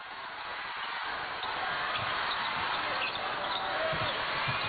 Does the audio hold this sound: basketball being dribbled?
yes